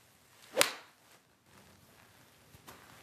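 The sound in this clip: A golf iron strikes a ball off the ground with one sharp, loud crack. Near-quiet follows, broken only by a couple of faint ticks.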